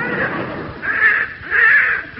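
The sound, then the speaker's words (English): A young crow with an injured leg caws three times in harsh, fairly high calls, each separated by a short pause. “it's a young crow that Alfie spotted”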